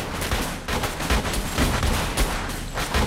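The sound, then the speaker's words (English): Police officers fire guns at a shooting range, a line of uniformed officers shooting at targets alongside two plainclothes detectives. Many sharp reports overlap in a dense, continuous volley. “They fire at their targets along with a line of uniformed officers on either side.”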